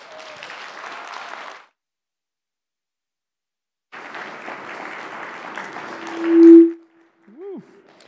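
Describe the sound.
An audience claps to welcome a pastor to speak at a service. Two bursts of applause are separated by a silent gap, and a loud tonal ping and a brief warbling tone follow.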